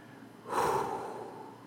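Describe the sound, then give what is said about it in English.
One long, deep breath by a person, a noisy, airy rush that swells quickly and then holds steady to the end. “Now I gotta take a deep breath”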